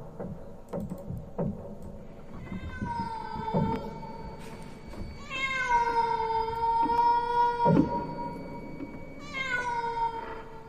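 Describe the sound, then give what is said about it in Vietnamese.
A cat meows eerily outside on a porch at night, giving a few long, wailing cries with wavering pitch. Soft knocks and rustles come between the cries. “có con mèo không biết ở đâu xuất hiện, cứ đứng ở ngoài hiên, kêu lên những tiếng ghê rợn thảm thiết.”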